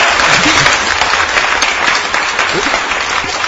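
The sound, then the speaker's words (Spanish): Enthusiastic audience applause for a participant fills the room, a loud, dense and continuous wash of clapping that stays steady throughout, with faint voices mixed in. “El público está en ese momento que no han podido dejar hablar a la participante porque todo el mundo está en un aplaudir”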